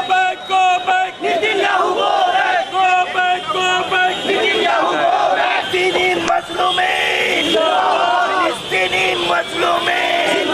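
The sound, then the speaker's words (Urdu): Crowd of protesters chanting slogans at a Mumbai demonstration against the visiting Israeli prime minister and in support of Palestinians; many voices shout together loudly and continuously, with a steady, rhythmic chant running through the whole stretch. “مظاہرین نے اسرائیلی وزیراعظم مردہ باد اور فلسطینیوں کے حق میں نعرے بھی لگائے۔”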